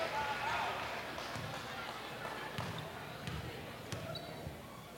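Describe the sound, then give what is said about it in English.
A basketball is dribbled a few times before a free throw in a high school girls' game, its low thumps spaced through a steady crowd murmur with voices in the background. “Two dribbles. She'll measure it on its way.”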